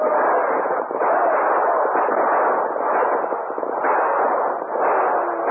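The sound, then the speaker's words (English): Gunfire in a shootout between a posse and outlaws: dense, overlapping shots merge into a continuous, muffled crackling roar that holds steady in loudness for several seconds. “Use your guns, men. Give it to them.”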